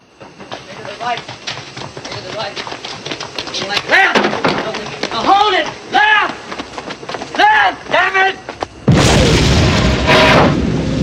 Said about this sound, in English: An explosion blows Brain through the air, and he lands heavily on the roof of an abandoned car.